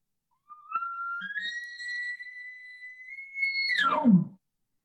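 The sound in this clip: An elk bugle imitated by a person through a calling tube: a whistling tone starts low, steps up to a high, sustained note held for over two seconds, then drops sharply into a low, growling grunt at the end.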